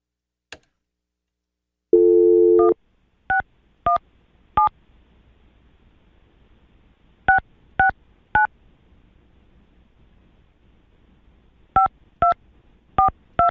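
A telephone call is dialed: a brief low dial tone, then about eleven short keypad beeps in groups of four, three and four, with quiet line hiss between the groups.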